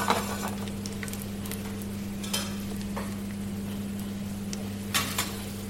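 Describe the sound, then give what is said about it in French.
Grenaille potatoes sizzle in fat in a pan taken off the heat and are stirred to coat them. A steady, soft frying hiss is broken by a few light clinks and scrapes of a utensil against the pan, over a constant low hum. “Ensuite, les pommes grenailles. On les retire du feu bien enrober les pommes grenailles avec la grasse.”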